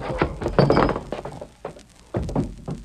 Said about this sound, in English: He ain't dead. I just tapped him on the noggin.